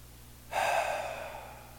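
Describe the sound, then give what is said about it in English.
A single deep breath begins after a brief silence: a soft, airy rush of air that swells quickly, then slowly fades over about a second. “I invite you to join me in taking a deep breath.”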